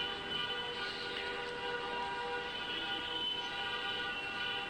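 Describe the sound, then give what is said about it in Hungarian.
Car horns honk from a large wedding procession, a continuous, even blare of overlapping horn tones held at a constant level from start to finish. “Na, itt is menyegzői, direkt illusztráció ahhoz, amiről beszélünk, boldog menyegzői tülkölés. Jó nagy násznép van, elég sokáig tülkölnek.”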